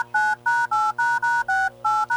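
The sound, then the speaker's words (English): Telephone keypad tones as a call is dialed: a quick, evenly spaced run of clear dual-pitched beeps, each short and steady with brief gaps between them, and no voices. “let's try to get him on the phone now.”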